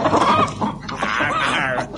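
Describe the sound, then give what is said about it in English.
Hens on a poultry farm cluck busily and loudly in a continuous, overlapping burst of short, throaty calls with no talking. “Wurzel Doddidge, the worst ever poultry farmer, as he tries to get his hens to lay more eggs by playing gramophone records to them”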